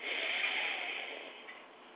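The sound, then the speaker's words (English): A long, deep, airy inhale during a breathing exercise, a soft breathy rush that is strongest at first and tapers off gradually over two seconds. “As we take our last long, deep breath, inhale deeply.”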